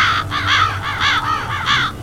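Harsh, rasping caws come from a flock of ravens, many calls overlapping in a quick, uneven rhythm above a low rumbling background.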